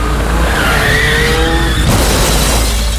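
Car tires skid in a long squealing screech over a rumbling engine, the wavering squeal tones lasting nearly two seconds before giving way to a rougher burst of noise.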